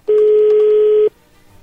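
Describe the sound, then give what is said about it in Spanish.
One steady electronic telephone tone sounds as a phone call is placed. It is loud and level, holds for about a second, then stops abruptly and leaves near silence. “entonces vamos a llamarle”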